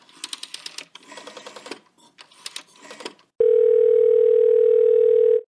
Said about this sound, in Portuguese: Ele liga.